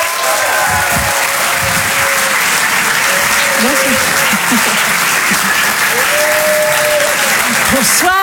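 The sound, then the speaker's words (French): Audience at a live comedy club show at the Apollo Théâtre in Paris applauding and cheering as a comedian is introduced, loud continuous clapping with whoops and whistles rising over it throughout. “Nous sommes très heureux de recevoir ce soir une artiste qu'on adore. Et je vous demande de l'encourager très très fort.”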